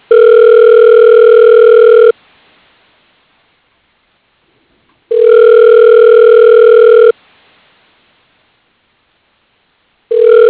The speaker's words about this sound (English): Okay, dialing.